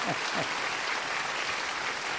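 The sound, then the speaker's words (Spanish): Applause from an audience at a church sermon: dense, steady clapping at an even loudness throughout, with a brief voice near the start. “Un aplauso a Juan, Un aplauso a Juan.”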